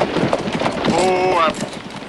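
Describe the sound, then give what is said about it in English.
Horse hooves clip-clop as a family's horse-drawn carriage pulls up in front of a hotel, a steady run of moderate clops that eases off toward the end. “Now, the family's carriage pulls up in front of a hotel. Zeb pulls on the reins.”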